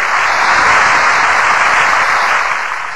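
An audience at a village fair applauds as a female singer arrives on stage, a loud, dense and steady wash of clapping that eases slightly toward the end.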